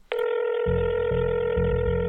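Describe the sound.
A telephone line tone sounds as shareholders dial into a conference call: one steady, bright electronic tone holds throughout, joined partway through by a lower buzzing hum that breaks briefly a couple of times.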